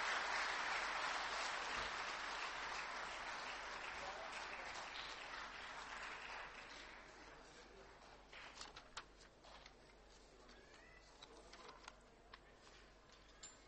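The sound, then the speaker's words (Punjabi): An audience applauds to welcome a performer onto the stage, a dense wash of clapping that starts loud and steady. It gradually fades and thins out into a few scattered, isolated claps. “ਤਾੜੀਆਂ ਦੇ ਨਾਲ ਇਹਨਾਂ ਦਾ ਸਵਾਗਤ ਕਰਾਂਗੇ”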